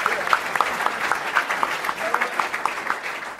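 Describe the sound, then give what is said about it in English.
Steady audience applause at a wine talk event: dense, continuous clapping for the whole stretch with faint voices mixed in. “Round of applause, everybody.”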